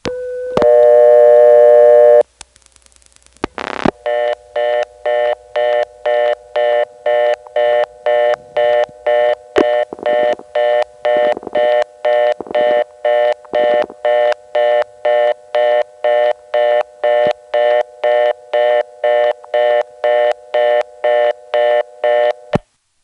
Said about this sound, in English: After we get the reorder on the 11th terminal, you can hear another caller coming into it and dialing over it.